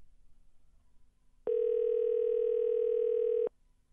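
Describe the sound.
A steady telephone dial tone sounds as a single unbroken mid-pitched tone, starting abruptly and ending abruptly after about two seconds, alone over faint background noise.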